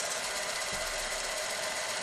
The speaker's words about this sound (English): That's a microfilm machine, like the ones you used at your high school library.